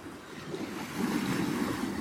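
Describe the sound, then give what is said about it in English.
Waves wash onto the shore of Kitchigami, a great lake, producing a soft, steady rushing surf mixed with wind, slightly louder in the second half. “Good morning from the shores of Kitchigami, this great lake. This powerful lake humbles us,”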